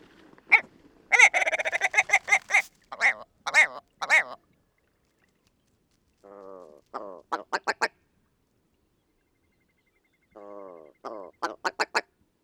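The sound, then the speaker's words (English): A male willow ptarmigan sings in flight and finishes as he lands: a loud burst of rapid, harsh, nasal barking notes, then after pauses two shorter phrases, each a low rattling croak followed by a few sharp yelps. “This is the song of the male willow ptarmigan. The first part of the song is given in flight, and it finishes as he lands.”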